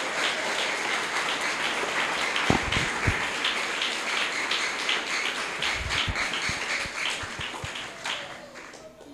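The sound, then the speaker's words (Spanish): Applause from a church audience at an evening service: dense, steady clapping that holds for several seconds, then thins and softens toward the end. “Y a su nombre, dale un aplauso a Jesucristo en esta noche.”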